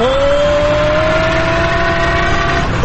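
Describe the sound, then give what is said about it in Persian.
A car engine hums steadily as the car backs up out of a narrow alley. The loud, continuous drone holds a nearly stable pitch throughout. “دنده عقب بگیرم شاید جایی رو خواب برون.”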